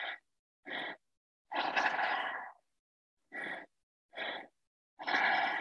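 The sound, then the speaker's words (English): Three-part breathing through the mouth, filling belly then chest before breathing out: two short breaths followed by a longer one, a pattern heard twice, soft and alone. “It's a 3-part breath. It's all through the mouth. So you would breathe into the belly, into the chest through the mouth, and then out through the mouth too.”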